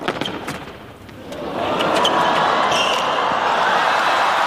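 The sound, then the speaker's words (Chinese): A tennis return clips the net cord and drops onto the opponent's side in a women's match; a few sharp ball knocks come first, then crowd noise swells and holds as a steady roar. “这个球接发球弹网啊，掉在了斯维托利娜的场地上”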